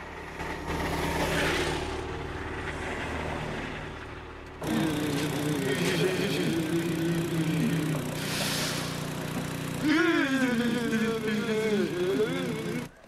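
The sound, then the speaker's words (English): A small motor vehicle's engine drones as it drives quickly round a bend and along a main street, with a steady hum, a sudden shift partway through and a wavering pitch later on. “Now alone again, they motor quickly round a bend and past a sign that reads, "Welcome to Aspen." They ride along a main street.”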